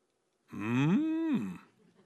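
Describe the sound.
A human voice imitates a cow mooing with a single drawn-out, low moo lasting about a second. Its pitch rises, holds steady, then falls away into silence.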